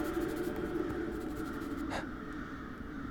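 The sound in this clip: A pen scratches across paper in steady, soft, continuous strokes, broken by one brief, louder stroke.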